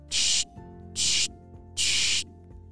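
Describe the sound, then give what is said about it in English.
Three hissing bursts of Bubbleberry soap from a spray bottle, sprayed onto sports equipment. Each burst is loud, even and about a third of a second long, with short pauses between them. “He sprayed a few sprays of the Bubbleberry soap.”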